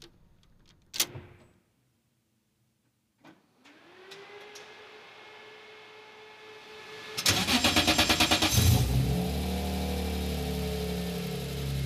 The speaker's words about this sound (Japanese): 徹底的な軽量化を図った車内にはロールケージが張り巡らされまさに戦うためのマシーン本物のレースカーから生まれるプレミアムなサウンドをどうぞお楽しみください。